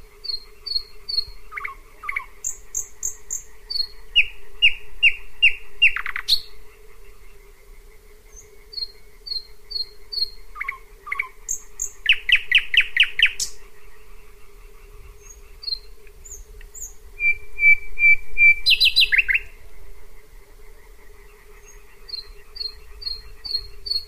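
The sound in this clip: A bird sings its night song: a complex, varied series of whistles, trills and sharp chirps, each element repeated several times in quick runs between short pauses, over a steady low continuous drone.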